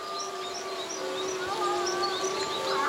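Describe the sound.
Animals howl in a group, long sustained wavering tones that swell slightly toward the end, with high bird chirps scattered over them.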